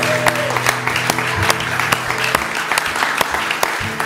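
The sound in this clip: Audience applause at a church service as a baby is welcomed, steady and lively clapping over a sustained musical tone.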